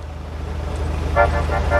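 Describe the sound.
A car horn gives a few brief, bright honks over a steady low engine hum.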